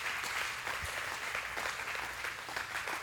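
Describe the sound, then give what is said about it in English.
A church audience applauding to welcome guests during a morning service, a steady, even clapping from many hands that holds for the whole moment without voices. “Church family, can you just please welcome our guests? Let them know we're really glad that they're here this morning.”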